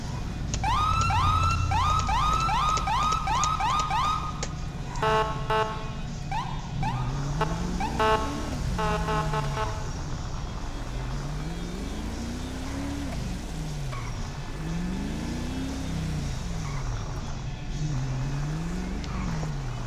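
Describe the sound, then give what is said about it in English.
A police Ford Explorer siren wails as the SUV is driven fast in a video game. Quick, high yelping pulses come first, then slower rising-and-falling wail cycles over a steady roar of engine and road. “Driving real fast in this Explorer. As you guys can tell, when I drive my police cars, I drive them”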